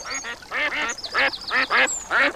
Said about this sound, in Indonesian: Ayo bebek-bebek, makan yang banyak agar kalian sehat dan banyak telurnya.